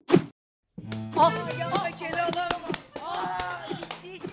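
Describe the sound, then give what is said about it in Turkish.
Sharp wooden thwacks of the magic stick beating the sultan and his vizier in the Keloğlan folk tale: several quick, loud whacks in a row, mixed with raised voices. “Tık sopam tık. Sopa Keloğlan'ın elinden çıkıyor.”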